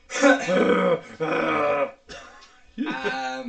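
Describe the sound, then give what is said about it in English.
A voice imitates angry huffing breath, producing four throaty, growling bursts. The first two are loud and long, the third is short and weaker, and the last returns strongly, each voiced with a rough, grunting edge. “Ah, but you huff when you get angry. You really huff.”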